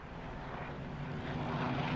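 An airplane flying past: a steady, broad engine roar with a propeller-like drone that holds throughout and grows slightly louder toward the end.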